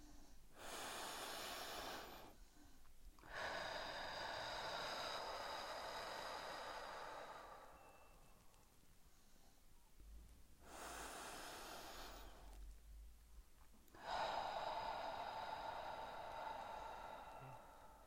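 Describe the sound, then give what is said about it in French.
Deep breathing in through the nose and out through the mouth: two slow breath cycles, each a long airy inhale followed by a sustained, forceful rushing exhale, loud and alone without talk. “Inspirez par le nez et expirez par la bouche bien fort à deux reprises.”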